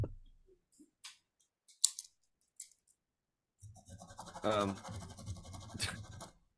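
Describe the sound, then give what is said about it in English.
Pen scratching on paper while crossing off items on a list: a few short, dry strokes with quiet gaps between them, followed by people talking. “What are you writing down?”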